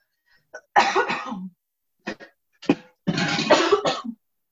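Coughing and throat clearing after vinegar is inhaled while cooking eggs: a short catch, then a few harsh coughs with brief gaps, ending in a longer coughing fit.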